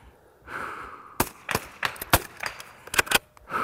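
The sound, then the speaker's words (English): A .22 caliber rifle is worked and fired at a target 50 meters away. A soft breath comes first, then several sharp, bright cracks and clicks follow in quick succession. “Bolting, and then I inhale, exhale onto the target and take the shot.”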